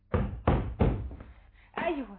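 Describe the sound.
Three heavy, hollow knocks land on a door late at night, evenly spaced and fairly loud, and a voice follows right after.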